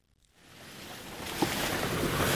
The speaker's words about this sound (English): What you're hearing are the winding, dizzying dirt roads up the mountains of northern Nepal.